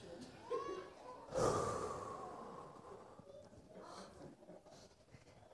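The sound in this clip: Choir members at practice take a deep breath together: one broad, breathy rush of air swells early on, then fades into faint, low rustling. The whole passage is quiet.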